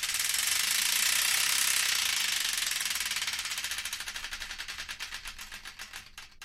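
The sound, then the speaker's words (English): A prize wheel spun to choose a song gives a rapid blur of clicking that gradually slows, the ticks growing distinct and more widely spaced as the wheel winds down, with no talking. “let's give the Wheel Destiny one final spin to find out the song that'll be taking us into the news and beyond”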